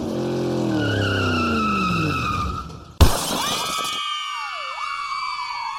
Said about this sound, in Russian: Отчаянный вопль, треск, грохот и тишина. Итил вскочил. За оградой парка на улице столкнулись две машины.